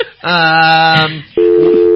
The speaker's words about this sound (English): They hung up real fast.